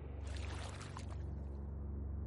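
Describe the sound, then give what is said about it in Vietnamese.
Water washes steadily as a wooden boat is rowed along a river, a continuous wet hiss with a low hum beneath it and no separate strokes standing out. “anh lại chèo ghe đi”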